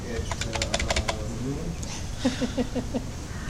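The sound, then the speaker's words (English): Typing on a computer keyboard: a quick run of crisp key clicks fills the first second, then quieter background noise follows while people talk. “maybe the keyboard. Are you hitting an enter still?”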